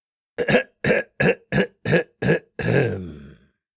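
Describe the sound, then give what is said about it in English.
A man clears his throat with six short, gruff, rasping bursts in a steady rhythm, then one longer rough rumble that trails off. “He cleared his throat.”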